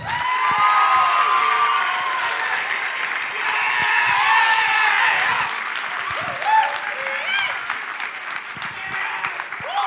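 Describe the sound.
A church audience applauds and cheers to welcome a speaker, with dense, steady clapping and scattered cheers that keep up for the full stretch without letting up.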